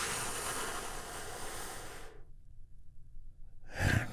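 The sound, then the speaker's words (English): A deep breath in and release during a guided healing breathing exercise: a long, soft, airy rush of breath for about two seconds, a short pause, then another brief breathy burst. “Take another big, deep, healing breath together.”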